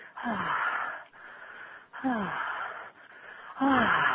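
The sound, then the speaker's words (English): Forceful breathing exhalations, three in all, each a loud, wheezy rush of air with a faint voiced edge, separated by quieter breathy pauses. “I put in more wind, more energy, more spirit into my breath, but it's always, it's never a controlled exhalation.”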